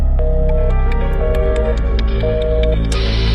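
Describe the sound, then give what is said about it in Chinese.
A telephone busy tone on a recording sounds as three steady, evenly spaced beeps over a low hum. It then gives way to a wash of hissing static. “一阵电话忙音，录音只剩下嘶嘶的杂音。”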